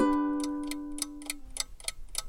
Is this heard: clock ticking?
yes